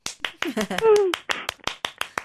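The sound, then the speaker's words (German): Hands clap in a steady rhythm of many sharp, evenly spaced beats. A voice is heard briefly in the middle. “Warte, ich klatsche.”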